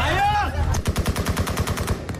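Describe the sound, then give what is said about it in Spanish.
Rapid gunfire from US soldiers shooting into the air to keep fleeing crowds from storming evacuation planes in the capital under Taliban takeover: many sharp, evenly spaced loud shots in a fast burst, after a brief stretch of mixed tonal noise. “Los soldados estadounidenses disparaban al aire para evitar el asalto de los aviones”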